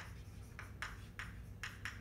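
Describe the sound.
Faint, scratchy writing strokes on a board during a chemistry lecture, five short swipes in an uneven rhythm over low background hiss.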